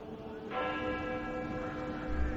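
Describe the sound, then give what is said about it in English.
A church's funeral bell, the dead bell, tolls once on a chill winter day. A single clear strike blooms into a long, steady, ringing hum over a low background rumble. “The dead bell tolled as I walked back through the chill and past the kitchen garden.”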